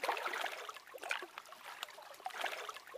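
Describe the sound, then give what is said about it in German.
Water is scooped from a lake with a bucket drawn along the bottom from a crouch where a jetty once stood: irregular splashing and trickling that swells and fades in soft bursts, with no voices. “Dort, wo früher der Steg stand, hockt sie sich hin, um Wasser zu schöpfen.”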